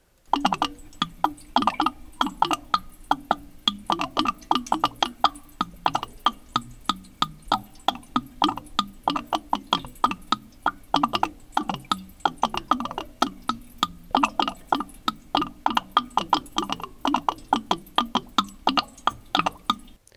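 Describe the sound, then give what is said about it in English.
Water draining from a pipe in a basement makes a long, even run of quick knocking drips and ticks. The steady rhythm continues at moderate volume with no voices throughout. “This is the sound of the water draining from the pipe in my basement.”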